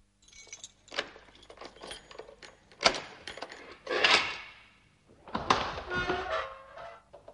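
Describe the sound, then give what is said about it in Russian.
Keys jangle and a door is opened, with a few dull thunks and metallic rattles scattered through a quiet passage, ending in a longer clatter. “Пожалуйста, откройте дверь.”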